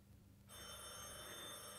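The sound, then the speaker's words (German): A telephone bell rings in a home, beginning abruptly after about half a second of quiet and then continuing as a steady, loud, high metallic ring to the end. “Telefon.”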